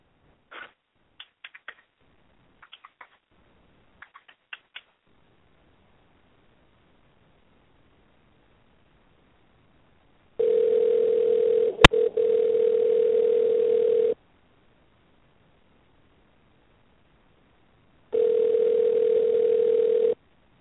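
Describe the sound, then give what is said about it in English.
An outgoing phone call to a guest rings on the line: two long, steady ringback tones separated by silence, preceded by a few faint soft clicks. “So we're going to dial in here Summer Bradshaw and see if she'll pick up the line here tonight.”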